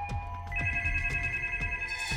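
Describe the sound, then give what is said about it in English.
A telephone rings with a steady electronic ringtone of bright sustained tones over a repeating low pulse, with a higher tone joining partway through, fairly quiet and with no voices. “The phone was ringing again.”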